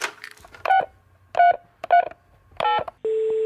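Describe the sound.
Touch-tone telephone dialing: four separate beeps with uneven gaps, then a steady continuous tone that runs to the end.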